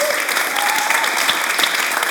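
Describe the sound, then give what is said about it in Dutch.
An audience applauds four guests at the close of a discussion, with dense, steady clapping and faint crowd noise sustained through the whole stretch. “Mag ik een applaus voor mijn vier gasten?”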